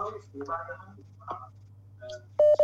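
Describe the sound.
A telephone tone sounds as a phone call connects: a loud, steady electronic beep with brief breaks comes right at the end, after a stretch of talking.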